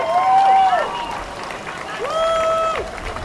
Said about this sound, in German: Was zu hoffen ist, vielleicht erstmal ein Applaus für alle Innis, die sich in den letzten Jahren für diese Umbenennung stark gemacht haben.